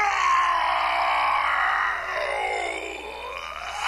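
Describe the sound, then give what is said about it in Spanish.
A voice imitates an angry ogre shouting and roaring: one long, loud, strained growl held for nearly four seconds that slowly fades toward the end. “Todos se dieron cuenta de que el ogronte estaba enojado porque empezó a gritar y a rugir y a mover las manos como si fueran las aspas de un molino.”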